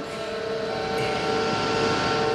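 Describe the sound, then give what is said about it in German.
A submarine engine drones as it runs up: a dense, steady mechanical rumble with a constant tonal whine, growing slightly louder throughout. “Ich verschließe die Luke. So, alles klar. Ich starte den Motor. Ich übernehme die Lenkung.”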